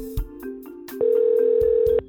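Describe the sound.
Telephone line tones just before a voicemail box answers: softer tonal pulses, then one loud, steady electronic tone that holds for about a second and cuts off sharply.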